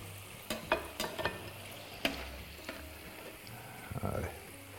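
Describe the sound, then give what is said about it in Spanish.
Fried potatoes are lifted out of a pan of hot oil with a utensil to drain. A soft, steady sizzle runs under several sharp clicks and scrapes that are scattered irregularly and stay fairly quiet. “lo cojo con esto, que no es lo más cómodo del mundo, pero es que así por lo menos se escurre el aceite.”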